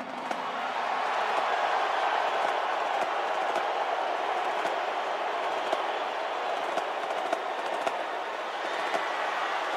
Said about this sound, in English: boos mixed in. Here is what it looked like when President Trump walked into the stadium.